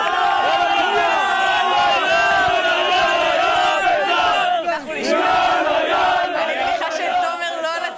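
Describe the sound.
Beitar Jerusalem football fans chant wildly at Teddy Stadium. A dense, loud roar of many voices runs without break, with one brief dip near the middle.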